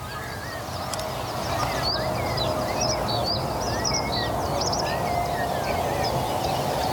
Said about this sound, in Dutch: Die rietgors is heel duidelijk aanwezig hier, hè? Ja. Is druk met zijn territorium.